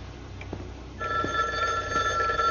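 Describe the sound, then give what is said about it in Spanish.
A telephone rings, its steady electronic tone starting partway through after quiet low background noise and continuing to the end at a moderate level. “El sheriff hace un gesto a Andy con la cabeza para que conteste al teléfono.”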